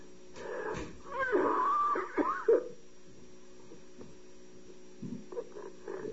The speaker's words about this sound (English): I'm just coughing, you know.